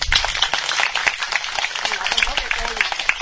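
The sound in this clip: An audience at a Buddhist temple's Buddha's Birthday celebration applauds with scattered, crisp claps throughout. Talking voices run under and over the clapping.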